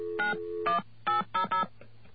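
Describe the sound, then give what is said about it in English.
Touch-tone dialing of a telephone number: five short electronic beeps at uneven spacing, each a clean two-tone chord, standing out plainly with no talk. “I'm going to fade it down while I dial the number”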